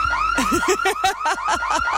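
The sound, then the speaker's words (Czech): A car alarm blares in a fast, repeating warble, its tone sweeping up and down through many quick cycles, loud and steady from start to end. “Vypněte to, prosím vás, někdo! Ten alarm. Vypni to, vypni to!”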